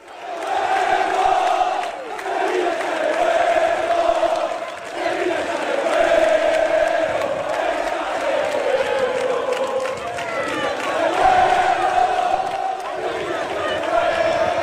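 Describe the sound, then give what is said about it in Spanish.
Sevilla football fans chant and cheer to welcome their team the day before a match: a loud, unbroken roar of many voices singing together, swelling and dipping slightly throughout. “La afición es consciente de lo difícil que es la situación y por eso se ha conjurado para animar al equipo.”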